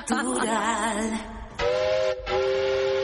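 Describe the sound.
A steam train whistle sound effect: a hissy, warbling blast, then a steadier shrill whistle that breaks off briefly and resumes.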